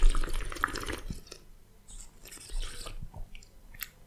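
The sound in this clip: Wine is sipped gently while air is drawn in through the mouth: an airy, hissing slurp with small wet liquid sounds. It is loudest at the start, then thins to a few faint, scattered bursts.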